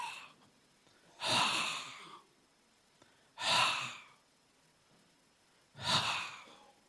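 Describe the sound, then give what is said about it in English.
Deep exhalations by people at a deliverance prayer session: three long, breathy outbreaths, each swelling and fading over about a second, evenly spaced with quiet pauses between. “So the thing that's moving in you, exhale. Exhale means I breathe out.”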